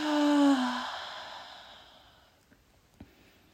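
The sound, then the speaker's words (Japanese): A slow, voiced exhale from a deep-breathing exercise, loud at first and sinking slightly in pitch, then fading into quiet breathy air with a couple of faint clicks at the end. “上まで来たら今度そのまま上に吐きます。”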